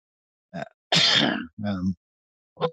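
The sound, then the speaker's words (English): A person coughs during a live stream: four harsh, breathy bursts, one of them long and rasping, separated by short silences. “sorry about the coughing there”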